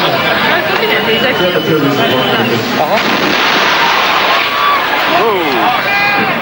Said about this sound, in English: I am about to play a loud boom here. If you are driving, don't be alarmed.